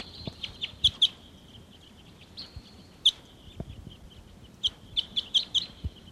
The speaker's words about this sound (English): Sounds like we got wild type 6 crossbills here now